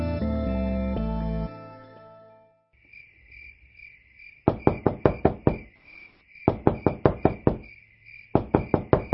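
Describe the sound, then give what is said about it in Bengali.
Pounding on a door from outside comes in three rapid bursts of heavy knocks, loud and sharp, over steady cricket chirring that follows a fading strand of music. “কেডা কেডা বাইরে থেকে দরজা ধাক্কায়”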